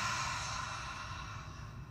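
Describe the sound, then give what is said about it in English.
A deep breath is drawn in through the nose and let out fully through the mouth, a long, steady, breathy hiss that eases slightly toward the end. “So let's take a deep inhale in through our nose. Full exhale out of your mouth.”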